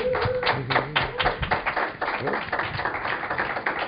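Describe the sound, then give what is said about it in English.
Applause rises to welcome a New York City Council member onto the stage, a dense patter of claps and taps with a few voices mixed in. “Would you please welcome Brad Lander?”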